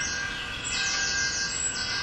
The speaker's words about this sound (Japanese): これ鳥の声、鳥の声も2種類入ってます。